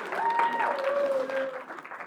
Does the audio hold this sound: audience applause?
yes